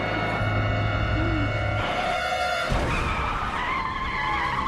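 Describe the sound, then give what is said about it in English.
A car speeds down a suburban street, its engine a loud, sustained high-pitched roar layered with skidding tire squeal that holds steady throughout. “He's only driving 290 miles an hour down the suburban street. No big deal.”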